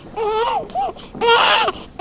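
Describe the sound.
Newborns cry in a hospital's neonatal intensive care unit. A few strained, wailing cries come in short bursts of varying length, fairly loud and with no adult voices.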